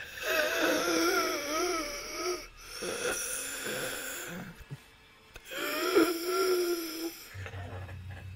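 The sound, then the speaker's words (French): Raspy, wheezing asthmatic breathing imitated by a voice during a live horror tabletop role-playing session, for a judge character. A few drawn-out, strained, tonal breaths come in loud bursts separated by short pauses. “le juge ne répond pas. Vous voyez juste cette espèce de respiration asthmatique.”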